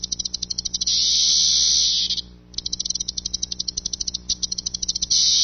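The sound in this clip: Loud chorus of periodical cicadas emerging after 13 years: a shrill, high buzzing that pulses rapidly, swells into steady drones, dips briefly mid-clip, then resumes its quick pulsing.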